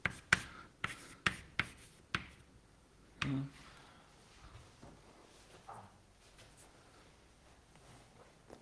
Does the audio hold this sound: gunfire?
no